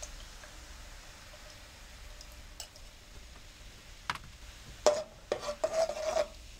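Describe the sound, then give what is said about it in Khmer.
Coconut cream and cane sugar are stirred in a pan, a quiet, sparse scraping at first, then a few louder rasping strokes of the utensil against the pan near the end. “រងាស់វាបន្តិចដើម្បីឲ្យខ្ទិះរបស់យើងវាឆ្អិនបន្តិចចា៎ហើយយើងអាចថែមអំបិលដាក់វាចូលជាមួយនឹងខ្ទិះរបស់យើង”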